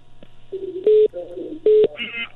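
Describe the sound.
Telephone keypad dialing tones while calling a listener: two loud, sustained beeps stand out among several shorter, fainter tones and blips over a low steady hum.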